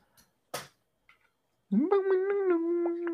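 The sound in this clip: A person imitates a cat's meow with a drawn-out, voiced wail that swoops up at the start and then holds a steady, wavering pitch. A few short clicks and taps come before it.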